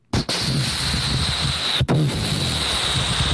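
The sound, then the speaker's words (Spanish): Large Pacific Ocean waves crash in a steady, loud, broad roar, briefly cut off twice before resuming at full strength. “y escuchan esas olas, si se acuerdan, cuando hemos estado en el mar Pacífico, si usted alguna vez ha visitado el mar Pacífico y ha escuchado esas grandes olas,”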